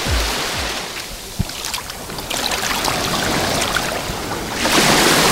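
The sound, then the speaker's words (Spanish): Calm sea water washes and splashes as feet move about in it on a hot, nearly windless day. A soft, hissing wash of small waves carries scattered brief splashes, and the surge swells louder near the end. “el sonido que se ha oído junto a las olas han sido mis piececillos disfrutando de estar dentro del medio acuático”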